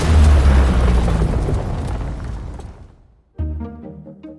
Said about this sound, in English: So why do so many trailers use the Booj and other super aggressive sound effects?